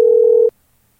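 A telephone line tone as a phone dials out to call someone back: one steady, unbroken mid-pitched note holds for about half a second, then cuts off abruptly into silence.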